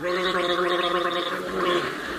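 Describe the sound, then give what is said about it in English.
Gargling fluid bubbles and rattles in a throat, a steady, continuous watery burble lasting about two seconds. “Take a letter in gargling fluid.”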